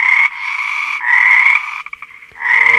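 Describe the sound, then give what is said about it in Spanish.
A frog croaks in loud, sustained, buzzy tones, broken by a brief stutter of short pulses before one more long croak. “Y la cuarta rana llegó y dijo:”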